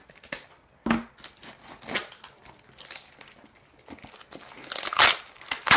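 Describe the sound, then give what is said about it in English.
Packing tape is torn and pulled open on an HP toner box, giving irregular crackling, rasping bursts separated by short pauses and growing louder and denser toward the end. “I'm going to send you the raw because this is 3 minutes and 45 seconds of me opening tape”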